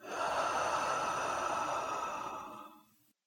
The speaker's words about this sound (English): Let's take a slow breath in through the nose and a soft sigh out of the mouth.